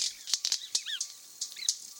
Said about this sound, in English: These firecracker-like pops are coming from the wing snaps of male white-bearded mannequins performing in a group display.